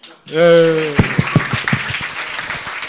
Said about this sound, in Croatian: I pljesak za Iliju koji je ponudio platformu da se ujedinimo na ovom eventu. Može ljudi?